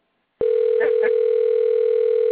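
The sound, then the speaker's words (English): A telephone gives a steady electronic tone that starts abruptly after a moment of silence and holds at an even, fairly loud level to the end. “who's got the phone ringing the phone?”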